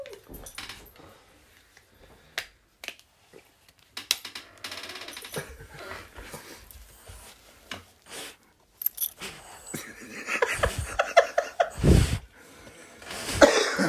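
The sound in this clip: A dog breathes heavily right into the microphone, giving irregular bursts of huffing, snuffling and snorting, some sharp and loud, with rustling between them.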